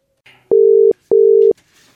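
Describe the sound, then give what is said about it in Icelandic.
A telephone line tone sounds on an outgoing call to Russia. Two steady mid-pitched tones of equal length are separated by a brief gap, with faint clicks at the start and end and no voices. “En hér á eftir ætlum við að hringja til Rússlands.”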